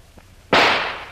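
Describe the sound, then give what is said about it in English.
A single loud, sharp gunshot, fired to shoot the lock off an old metal door, cracks suddenly. It trails off in a long decaying rumble. “I'm going to try and shoot the lock off the door. Get back now. The bullet may bounce off the metal.”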